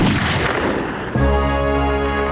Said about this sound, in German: Schießen Sie, Majakow! Ja, aber wenn er... Sie sollen schießen, verdammt nochmal!